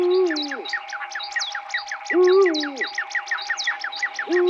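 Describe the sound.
An eagle-owl hoots in a piece of bird-sound music. Three deep, level hoots come about two seconds apart over a fast, steady pattern of high repeating chirps and a constant tone.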